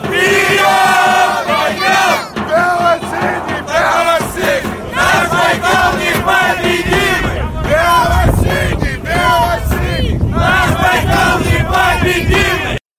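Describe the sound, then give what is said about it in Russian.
A football fan section sings and chants in the stands: loud, continuous massed voices with rhythmic chanting that rises and swells throughout, with no pauses. “Ростислав, а дай нам, пожалуйста, послушать, как поет фан-сектор.”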